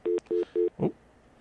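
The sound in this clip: Three short, identical electronic telephone tones in an even rhythm, followed by a brief noisy blip, heard during a conference call with no talking.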